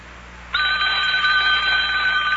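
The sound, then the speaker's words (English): A telephone bell rings on the mayor's phone, starting abruptly after a short quiet moment and continuing as one steady, loud, high-pitched ring to the end, with no voices. “Oh, telephone's ringing.”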